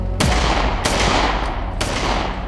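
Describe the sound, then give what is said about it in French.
Three sharp, loud gunshots fired at a motorcyclist with rubber bullets, evenly spaced and ringing briefly, with a fainter pop between the second and third. “Jérôme Thonon, l'ex de Nathalie, dégaine et il tire sur le motard. L'homme s'en sort, ça n'était que des balles en caoutchouc.”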